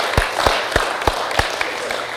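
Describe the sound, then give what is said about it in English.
Applause breaks out for conference organizers: a modest round of clapping with several sharp, evenly spaced claps standing out over a steady wash of hand claps. “I'd like for you to join me in a quick round of applause for Colin, Sean, Susan, Andrew, Karem.”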